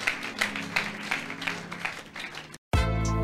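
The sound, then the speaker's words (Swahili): A church audience claps during a sermon, a burst of applause with regular rhythmic pulses that cuts off abruptly after about two and a half seconds, followed by a loud sustained tone. “Kama umepokea, mpe Yesu makofi ya utukufu mtu fulani.”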